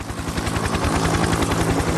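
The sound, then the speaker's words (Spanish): A Bell UH-1 Huey military helicopter, its rotor beating in a rapid, steady, loud thumping pulse with a continuous engine whine underneath. “Apareció una nueva generación de helicópteros. En cabeza estaba el Huey, el Bell UH-1.”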